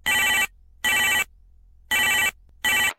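A telephone rings just before a sales call offering an internet promotion. Four loud, bright electronic ring bursts are separated by silent gaps, and the last burst is cut short.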